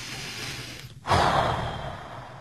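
One deep, audible breath as part of a demonstration of slow, controlled abdominal breathing. The single breath is a soft, airy rush that stands alone and fairly quiet, followed by a fading exhalation.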